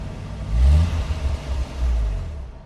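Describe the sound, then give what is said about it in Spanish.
Rental car driving away from an airport: a low engine rumble that swells twice, once near the start and again toward the end, with a steady whir between the swells before it fades. “Del aeropuerto salió en vehículo de alquiler hasta el departamento de Alessandra.”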